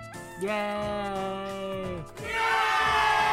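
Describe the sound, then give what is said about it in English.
A voice imitates an audience cheering with two drawn-out, tuneful cries, the first long and level before trailing off, the second brighter and rising in strength toward the end. “Wow, audience going nuts. They're really happy for you. Okay, audience, calm down.”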